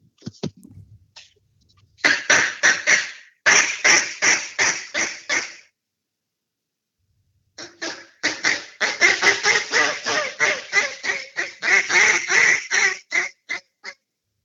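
Duck call sounds: quick bursts of raspy quacks blown on a cut-down call with a 7-0 reed, then a pause, then a longer, louder run of quacking on a Layers A5 call.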